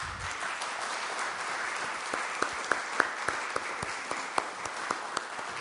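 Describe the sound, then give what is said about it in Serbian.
Applause from an audience at an award ceremony in Belgrade: steady, dense clapping that runs throughout, with several sharper individual claps standing out in the second half. “Molim vas jedan aplauz.”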